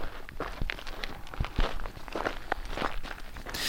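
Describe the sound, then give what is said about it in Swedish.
Footsteps walk uphill toward a forest outside Gävle in an even walking rhythm. Many distinct steps land one after another, fairly loud and clear, with no talk over them. “Så vandrar vi då upp mot skogen i Hemlingby utanför Gävle.”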